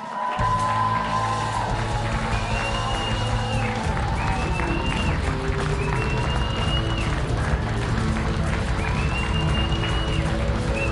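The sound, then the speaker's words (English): A studio audience applauds and cheers to welcome a guest on a live Green Bay Packers football show, with sustained loud clapping and crowd whoops that run steadily from start to finish. “Please give a warm Packers Live welcome to Joe Thomas.”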